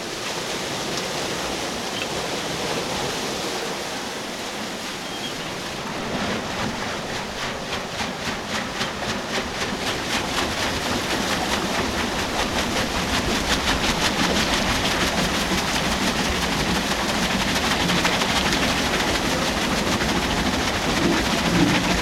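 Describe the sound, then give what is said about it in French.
Rushing water at an old flour mill's water wheel as it is set running, a loud steady wash that gains a rhythmic, fast clattering pulse partway through and keeps building gently to the end. “Ben on va aller voir la roue et la mettre en eau.”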